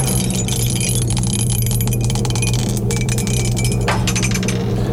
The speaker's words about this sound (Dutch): Bij de 5 gaan we nog een keer dobbelen. En bij de 6 zoeken we een liedje met een letter P. We gaan dobbelen.